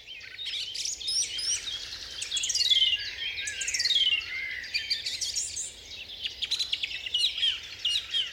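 Dawn chorus birdsong in a deciduous forest in spring, late April to early May: many birds sing at once in an unbroken stream of high chirps, trills and whistles, steady and fairly loud throughout.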